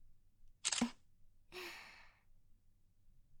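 A camera shutter fires as a photo is taken, heard as two brief crisp bursts. The first is sharp and short, and the second is a slightly longer, softer release, both set against near silence.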